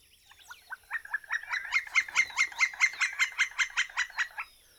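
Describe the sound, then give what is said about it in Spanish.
Royal woodpecker calling: a long, rapid series of sharp, harsh notes in even rhythm that starts soft, builds in loudness and then holds steady, heard alone. “¿Qué te dijo ese pájaro? Él es el carpintero real.”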